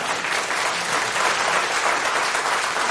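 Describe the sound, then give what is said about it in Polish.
An audience applauds a group of musicians at a concert with dense, even clapping that holds at a steady, moderate loudness for about three seconds, with no voices. “tutaj brawa były przewidziane w scenariuszu.”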